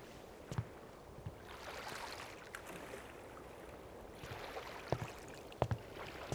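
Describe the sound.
Soft water sloshing as people row boats, with a faint steady wash broken by a few sharp knocks and splashes from the oars.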